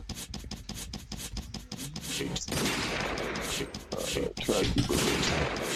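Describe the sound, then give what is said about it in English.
Gunfire: a rapid burst of many sharp, loud cracks, followed by a dense, continuous noisy roar that carries on to the end. “What was that? Oh, man. Something went down. Shots fired.”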